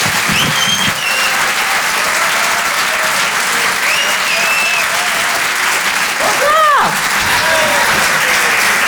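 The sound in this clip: Audience applause at a comedy club as a comedian is welcomed to the stage: loud, steady clapping throughout, with scattered whistles and whoops rising above it.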